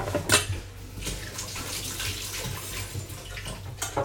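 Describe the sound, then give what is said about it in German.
A kitchen tap runs while hands are washed under it, making a faint, steady patter of splashing water with a couple of brief louder splashes near the start and end. “So, kurz Hände waschen.”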